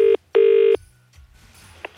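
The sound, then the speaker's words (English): Telephone ringback tone on a call, two steady buzzing bursts, a short one and then a longer one, followed by a quiet, faintly hissing line. “Let's get him on the phone. Phone's ringing.”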